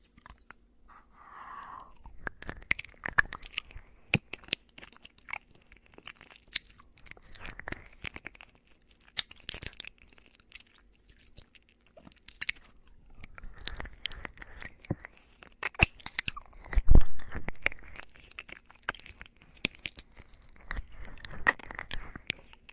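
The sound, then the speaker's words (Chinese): Crunchy food being chewed and bitten, with many crisp, uneven crunches and wet mouth sounds running steadily through the whole stretch, getting louder in a few bursts, with no talking. “我要吃了。”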